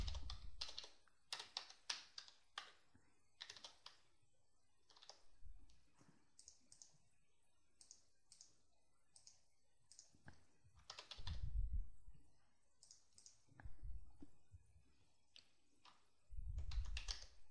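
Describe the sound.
Typing on a computer keyboard as text is entered into an autocomplete search field during a software demonstration. Many soft key clicks come in uneven bursts, with a few heavier thuds among them.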